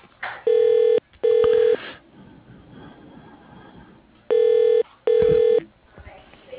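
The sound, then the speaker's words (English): Telephone keypad tones dial an extension on a company's automated phone menu: four steady, clear beeps in two pairs, each about half a second long, with faint background hiss in between. “If you know your party's extension, please enter it now or dial 0 for immediate assistance.”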